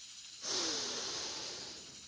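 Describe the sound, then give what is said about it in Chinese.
A person exhales during a breathing exercise. One long, breathy, hissing out-breath begins abruptly and stays fairly steady, fading only slightly toward the end. “呼吸，吐气，呼吸，”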